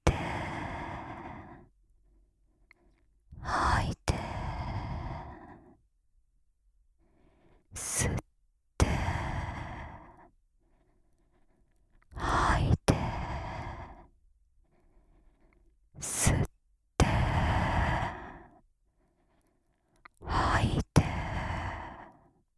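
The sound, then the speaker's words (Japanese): Slow, deep breathing in and out as a series of long, airy breaths alternating with short pauses. The exhales carry a soft, sighing quality, and the rhythm stays slow and even throughout. “吸って、吐いて、吸って、”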